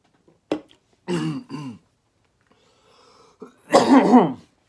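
Coughing after accidentally inhaling popcorn: a few harsh coughs and throat-clearing bursts, with brief separate hacks first, then a quiet pause, then a louder, rougher final cough.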